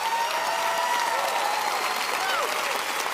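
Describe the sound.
A church audience at Lakewood applauds to welcome a guest pastor with dense, sustained clapping mixed with crowd noise and cheering, holding a steady loud level throughout.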